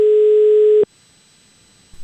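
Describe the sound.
A telephone tone heard while calling someone back: one sustained, steady mid-pitched tone that cuts off abruptly, leaving near silence with a faint noise at the very end.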